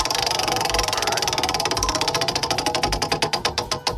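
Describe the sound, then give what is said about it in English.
A trivia prize wheel at a country music quiz rattles through rapid, crisp clicks that start dense and steady, then slow into wider-spaced, louder ticks as the spin winds down, with no talk. “you ready to spin the Hoot Owls Country Music Trivia Prize Wheel for your chance to win that Wee Street Ice Center Game Day Pack?”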